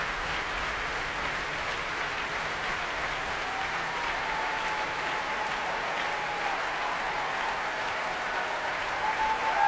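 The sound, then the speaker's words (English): Applause from a capacity concert audience: dense, loud, continuous clapping that holds steady throughout and swells slightly at the very end. “that, ladies and gentlemen, is the sound of a capacity audience who have very much enjoyed themselves.”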